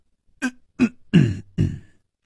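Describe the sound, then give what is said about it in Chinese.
A man coughs in four short, harsh bursts that are evenly spaced, with nothing else heard between them. “他咳嗽了两声，忽然住口不语了。”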